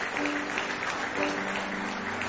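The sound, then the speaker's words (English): A church audience gives a hand clap of praise during an evening service, a dense, continuous roar of many hands clapping at a steady, fairly loud level. “Just give the Lord one more hand clap of praise tonight as we get ready.”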